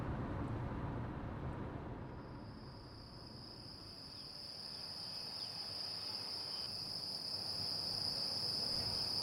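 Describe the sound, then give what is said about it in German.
Crickets chirp in the quiet countryside of Soria in central Spain, a faint, steady high-pitched trilling that sets in after a couple of seconds and continues over a soft, low background rumble. “So klingt die Stille in Soria, einer Provinz in Zentralspanien, nördlich von Madrid.”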